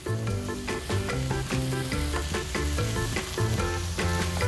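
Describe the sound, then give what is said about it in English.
Food sautés and sizzles in a pan with a loud, continuous crackling hiss. The sizzle stays steady throughout, with no voices. “So we're going to let this saute up.”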